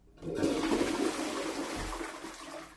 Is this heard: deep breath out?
no